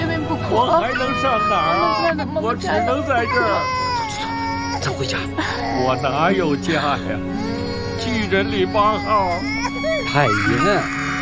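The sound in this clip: A young child crying in wavering, sobbing wails that rise and fall, mixed with several adults' voices talking over and around the crying throughout.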